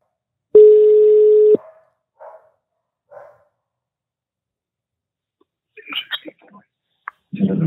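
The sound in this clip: A telephone tone while a call is being placed: one steady, loud tone lasting about a second, followed by two short, quieter beeps, then voices talking near the end.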